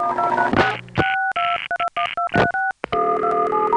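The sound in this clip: Touch-tone DTMF dialing on the New York City telephone network: a noisy burst, then several short paired beeps separated by brief gaps, ending in a steady, sustained multi-tone signal.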